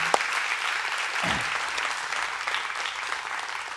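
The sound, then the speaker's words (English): Audience applause at a gathering, with continuous clapping at a moderate level throughout and no voices rising above it. “can we give them just a round of applause?”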